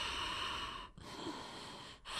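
Ujjayi yoga breathing: steady, airy, hissing breaths drawn through a narrowed throat, broken by two short pauses, fairly loud and alone without talk.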